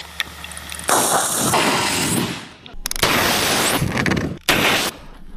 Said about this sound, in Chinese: 喷火兵迅速抢占有利阵地，灵活变换多种射击姿势，开展实喷作业。